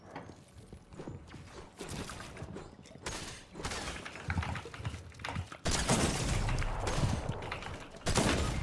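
Gunshots in a competitive one-versus-one shooter video game, fairly faint bursts of rapid fire with abrupt starts and stops, several volleys coming one after another.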